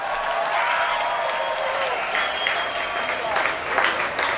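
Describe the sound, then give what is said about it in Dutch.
A concert audience applauding the Royal Concertgebouw Orchestra as it walks onto the stage, a dense, sustained wash of clapping that rises slightly toward the end. “wil ik jullie vragen voor een groot applaus voor het Koninklijk Concertgebouworkest onder leiding van de geweldige Han Na Chang.”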